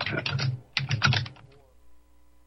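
Keyboard typing on a computer while searching Google: a few quick clusters of clicking keystrokes, then a pause and another burst that trails off into near silence.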